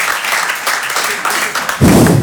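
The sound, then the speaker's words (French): Audience applause at an evening show, a loud, dense wash of clapping that swells and grows heavier toward the end. “Peut-être il y a des gens plus optimistes ce soir, par applaudissement sincèrement, qui pensent que ça va bien se passer pour nous dans le futur.”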